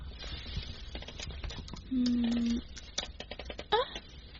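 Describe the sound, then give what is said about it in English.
Someone types a password on a laptop keyboard, a run of quick, light keystroke clicks. A short steady tone sounds midway, then the clicking resumes with a few louder taps near the end. “Wait a minute. Did I type the wrong password? I can't get in. What? Okay, let me do it again.”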